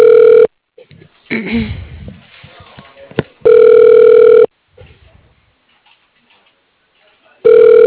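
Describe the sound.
Telephone ringback tone as a call is transferred to a voicemail extension: steady, buzzing tone bursts about a second long, repeating after long gaps. One is cut off at the start, one is full, and one begins at the end, with faint sounds in between.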